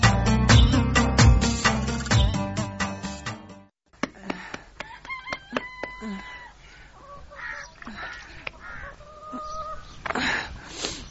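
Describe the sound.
Chickens clucking and pecking in bowls: loud, dense clucking and squawks at first, then after a short gap scattered clucks mixed with many short, sharp taps.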